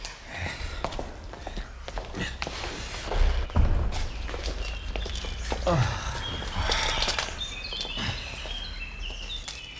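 Irregular footsteps and soft thuds come from people walking away after saying goodbye. The steps sit over a low background hum and vary in loudness, with no steady rhythm.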